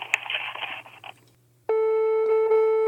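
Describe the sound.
Telephone tone on a call being transferred to a public health monitoring office in France: a short stretch of muffled noise, then a steady, loud, harmonically rich ring tone that holds unbroken to the end.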